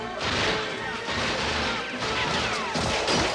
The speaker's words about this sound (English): Guests in the mansion duck for cover as bullets break the windows and riddle the piano.